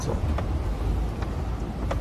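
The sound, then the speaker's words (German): Machinery in a coffee roastery gives a steady, low rumbling drone that stays even throughout. A few faint ticks sit on top, and no one talks. “Im Hintergrund ein bisschen die Röstereien.”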